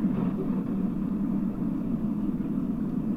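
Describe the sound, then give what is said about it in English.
Interior road noise from a car being driven: a steady, low rumble with broad wind noise, continuous and even, with no voices. “Hello, reporting from the car. Yes, sorry about the wind and other things. I will try not to curse the people out as I drive.”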